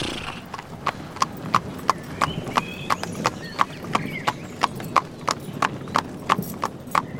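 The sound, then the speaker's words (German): Horse hooves clip-clop as a horse pulls a carriage out of a castle: many crisp, evenly spaced hoof strikes in a steady walking rhythm, about three per second, over a low rumbling background. “Die Kutsche setzt sich in Bewegung und fährt nach draußen”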